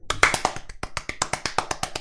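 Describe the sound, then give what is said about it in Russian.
Hands clap in a brisk, regular rhythm, many sharp claps following one another evenly with no talk over them. “Похлопаем господам в Исландии. Молодцы!”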